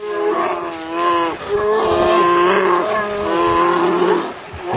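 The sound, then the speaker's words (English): Grizzly bears, a mother and her cubs, feeding on silver salmon in an Alaskan national park: loud, deep, harmonic bawling and moaning calls repeating several times in close succession. “here's the sound of a mother grizzly bear catching silver salmon for her cubs in Lake Clark National Park in Alaska. Here's the sound of the bears feeding.”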